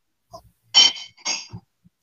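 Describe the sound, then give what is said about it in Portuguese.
A glass cup is picked up, giving a couple of bright clinks with faint taps and a soft knock around them, alone and with no talking. “Acho que eu vou pegar um outro copo, porque esse aqui ficou pequeno.”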